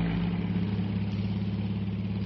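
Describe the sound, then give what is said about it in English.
A motor car engine runs steadily with a loud, low, even hum and a constant idling throb that never changes pace. No one speaks over it. “I never realized till today what a grand invention a motor car really is.”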